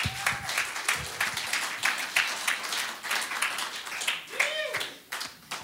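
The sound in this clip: Warm audience applause welcoming a speaker named Ben to the stage: steady, continuous clapping from a crowd, with a couple of whistles rising above it, lasting several seconds.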